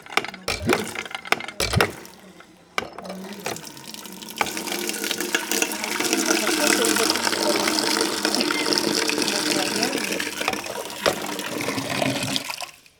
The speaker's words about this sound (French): Et là, je vais mettre un peu d'eau de pluie.